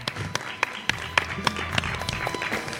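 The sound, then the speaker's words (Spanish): Brief, faint applause from a small group: scattered sharp hand claps in an uneven rhythm rather than a full ovation. “Un aplauso, hombre.”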